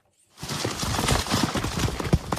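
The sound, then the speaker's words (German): Galloping hooves of Polesian forest horses pounding across a forest floor near Chmelnytskyi in western Ukraine, several riders together; dense, irregular thudding beats start after a brief silence and stay loud, with one sharper heavy thump near the end. “Pferdehufe auf Waldboden nahe der Stadt Chmelnytskyi in der Westukraine.”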